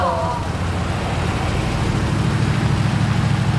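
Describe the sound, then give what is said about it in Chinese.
Low engine rumble of a Mercedes G-Class SUV, a steady idling drone that holds an even level from start to finish. “你们快看那辆大 G， 好像整个金海就这一辆哎。”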